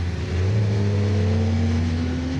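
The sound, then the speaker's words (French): Sustained engine roar of a Formula 1 car with about 800 horsepower, running on slick tyres on a very wet, slippery, oil-covered track; a loud, steady drone whose pitch creeps slightly upward. “Alors là, vous voyez, je suis derrière une F1 qui roule en slick.”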